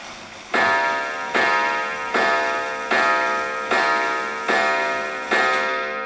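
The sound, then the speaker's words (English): A grandmother's clock, over 130 years old, going off at 6:30 with a run of seven loud, evenly spaced chiming strikes. Each strike rings out and fades before the next, keeping a steady rhythm. “That was the sound of my grandmother's clock, which has been keeping time for over 130 years, going off at 6:30.”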